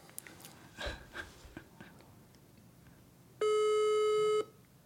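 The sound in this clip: A telephone ringing tone sounds once on speakerphone for about a second, loud and steady, after a few faint small noises in an otherwise quiet stretch.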